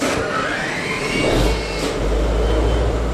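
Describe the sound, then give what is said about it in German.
Diesel engine of a 60-year-old Dutch-flagged cargo ship in the harbor at Mannheim-Rheinau, started at the push of a button: a loud, continuous rumbling drone whose deep low hum swells partway through and then holds steady. “Im Hafen in Mannheim-Rheinau steige ich dazu, Leinen los und dann wird der Dieselmotor angeschmissen mit Knopfdruck.”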